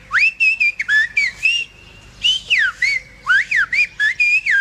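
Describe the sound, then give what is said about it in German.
People whistle to each other in a whistled language, many short shrill whistles that glide up and down in pitch, arriving in two quick clusters split by a brief pause, with no voices. “lernen jetzt gerade als erstes eine Sprache kennen, die nur aus Pfeifen besteht. Also das heisst, man hat gar nichts, sondern man pfeift nur miteinander. Und es sind Menschen, die miteinander pfeifen. Das klingt so.”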